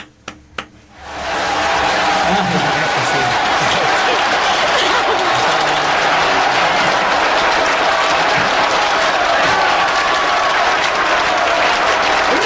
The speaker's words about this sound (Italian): Grande, ci sono anche gli applausi in diretta, aspettate,